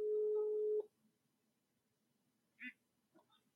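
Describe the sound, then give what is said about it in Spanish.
A telephone ringing tone sounds while a call is being placed: one steady, fairly low tone lasts under a second, then cuts off into near silence with a few faint clicks and blips. “Aquí está marcando.”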